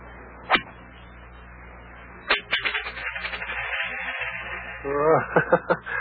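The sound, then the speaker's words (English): Tiddlywinks are snapped toward a cup during a game, giving two sharp, bright clicks spaced a couple of seconds apart. “Now watch the performance of the champion, lad. I shall snap my first tiddly here.”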